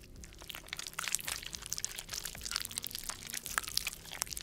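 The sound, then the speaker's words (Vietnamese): Crunching from a man chewing something hard, a dense run of crisp crackling snaps and crunches, fairly faint and irregular throughout, with no talking. “Cơ miệng của ông bắt đầu di chuyển, âm thanh phát ra rồn rột, tựa như đang nhai cái gì.”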